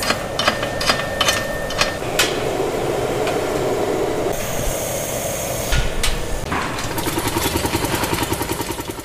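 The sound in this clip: Machines pound in a glass factory melting shop, making a loud, dense industrial clatter with rumbling noise, scattered heavy knocks and a fast, rhythmic thumping toward the end.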